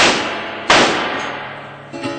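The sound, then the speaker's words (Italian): Two loud, sharp gunshots fired at a door, each a sudden crack trailing into a long ringing decay. “Ora spara due colpi nella sua stessa porta e poi getta il berretto di Mussolino”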